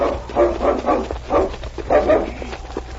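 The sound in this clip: A dog named King barks in the snow, giving several short, rough barks in an uneven rhythm over a low steady rumble, with some whining yips between them.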